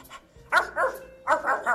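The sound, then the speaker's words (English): A Kurt Russell Terrier barks in a few short, yappy bursts. The barks are moderately loud, with brief gaps between them and a tighter cluster near the end. “The first thing we'll do today is feed my Kurt Russell Terrier, Femur. Hello there, boy.”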